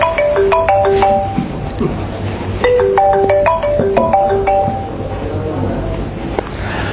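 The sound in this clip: A mobile phone ringtone goes off during a religious lecture: a bright melody of short electronic notes repeats its phrase several times over a low, steady background hum.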